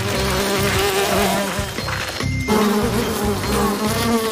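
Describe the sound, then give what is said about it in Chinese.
Bees buzz around a cracked hive in a steady, dense drone that holds at an even loudness from start to finish. “看看裂开的蜂窝有这么多蜜蜂。”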